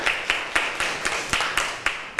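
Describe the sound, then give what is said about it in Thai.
Students in a classroom clapping for a classmate: a steady run of evenly spaced, crisp claps at about four per second, fairly faint. “ค่ะเก่งมากค่ะปรบมือให้เพื่อนหน่อย”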